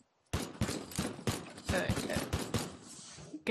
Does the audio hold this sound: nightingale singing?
no